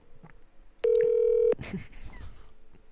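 A telephone tone sounds while someone places a call, one steady electronic beep held for under a second amid faint clicks and rustle.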